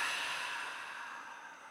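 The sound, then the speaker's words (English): A long exhale during a guided breathing exercise: one soft, breathy hiss that fades gradually over its length, faint and alone with no talk. “Inhale. And oh, exhale oh, that thing out. Exhale that thing out.”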